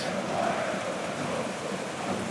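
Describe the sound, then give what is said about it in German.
Steady, dense rain hisses during a thunderstorm at a football stadium. The broad wash of noise stays at an even level for the whole stretch, with no distinct thunderclap standing out. “es blitzt und Donnert.”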